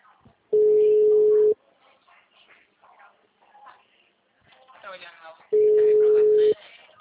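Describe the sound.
Ringing tone on a telephone line while someone tries to place a call: two loud, steady, mid-pitched beeps, each about a second long and spaced roughly five seconds apart, with a person talking quietly in the gaps.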